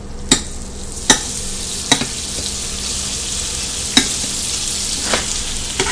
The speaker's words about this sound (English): Come on, you flip. I just kind of flipped it with the butter knife I was using, even though the spatula is right in front of me.